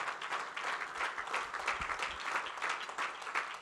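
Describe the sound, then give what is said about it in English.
A church audience claps its hands together in steady, dense applause that holds at an even level throughout, with no voice standing out. “If that's how you feel, would you clap your hands to the Lord in this place?”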